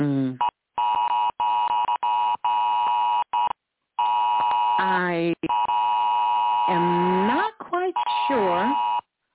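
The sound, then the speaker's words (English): A phone's Amber Alert emergency tone: a loud, buzzy harmonic note that pulses in bursts with short gaps, while a person talks over it. “That's an Amber Alert.”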